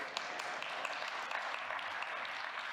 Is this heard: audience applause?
yes